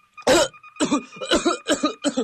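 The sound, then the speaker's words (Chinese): Violent coughing after choking on a sip of tea: five harsh, loud coughs in quick succession, the first the strongest and the rest rapid and rasping. “阿炳喝了一口茶水，却不料被水呛住了，猛烈地咳嗽起来。”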